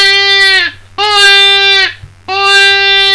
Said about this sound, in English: Most of us have played around with the predator call before. You get a sound that sounds something like this.